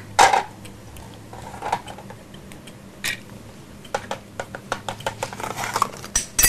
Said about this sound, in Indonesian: Potong ikan.